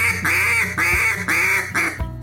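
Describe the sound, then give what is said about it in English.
Nasal quacks blown on a duck call as a basic quack and greeting call, a quick run of about five loud, buzzy honks in a steady rhythm with short gaps, ending abruptly. “Stick with the basics, learn the basics. Again, the quack and the greeting call.”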